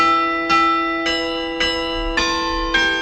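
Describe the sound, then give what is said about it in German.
Church bells ring with evenly spaced, resonant strikes about every half second over a sustained, humming bell tone. The rhythm is steady and there is no talk. “An kirchlichen Feiertagen wie Ostern, Pfingsten oder Weihnachten klingt es meistens besonders fröhlich und laut. Oder an Silvester, da läuten oft alle Glocken einer Stadt zusammen.”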